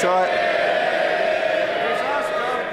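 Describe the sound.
MPs cheer and shout in the House of Commons, a dense, steady roar of many overlapping voices that holds at an even loudness for the whole stretch.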